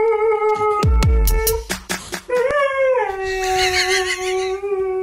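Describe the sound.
A dog howls in a drawn-out, melodic way, as if singing opera, holding long steady tones that shift in pitch, with a few short yelping sounds mixed in.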